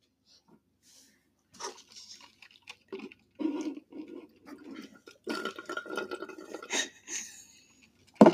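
Wet, irregular juice sound effects made for ASMR: soft drips and sloshing liquid bursts come in uneven clusters at low volume, ending on one sharp, louder knock.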